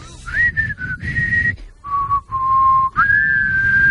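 Someone whistles a catchy theme tune alone, loud and clear. A few short sustained notes step down to a lower, longer tone, then the melody jumps back up to a held high note.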